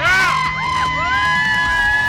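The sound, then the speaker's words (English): A live studio crowd of high school sports fans cheers and whoops for a radio show, with loud, sustained shouting, high yells and excited voices throughout. “This is actually a live crowd, I promise. They are live, they are not pre-recorded.”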